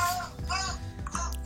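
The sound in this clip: A baby girl babbles in the background in a few short, rising and falling vocal bursts, soft and continuous over a brief stretch.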